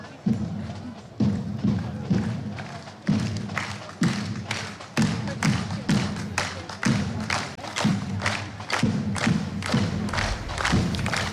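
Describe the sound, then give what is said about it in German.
Crowd clapping along to drums at a market during a shooting-club parade, heard as a steady run of many loud rhythmic thuds beating evenly throughout. “Man hat fast nur die Trommeln gehört und schon ist hier riesiges Geklatsche, Mitgeklatsche.”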